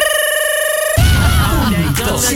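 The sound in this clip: A telephone ringing: a steady electronic tone that holds for about a second, then gives way to a voice speaking.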